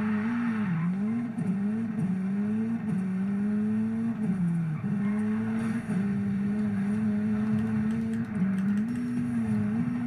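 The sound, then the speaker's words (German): Engine drone of a Hunigan RS200 launched at full throttle in a racing video game, a continuous buzzing whine that wavers in pitch with several brief dips, steady and loud without any talk. “Launch the Hunigan RS200 far as you can in under 30 seconds. Oder sowas. Egal. Gas geben.”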